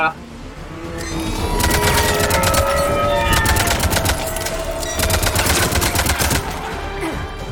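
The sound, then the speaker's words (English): In a video game, Cerberus troops shoot at civilians with rapid automatic gunfire, two long, loud bursts of fast crackling shots separated by a brief lull. “Cerberus is like just shooting at any random civilian.”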